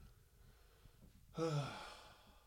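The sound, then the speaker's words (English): A single deep breath is drawn after a long stretch of talking, a breathy sigh that swells suddenly after a quiet pause and then trails off slowly. “I just realized I needed to breathe. I just kept talking.”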